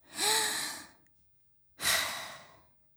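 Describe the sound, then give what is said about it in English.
A deep breath from a stressed person during a performance review: two long, breathy whooshes separated by a short silence, the first carrying a faint voiced, sigh-like tone, with no talk. “Please take a deep breath before we go on.”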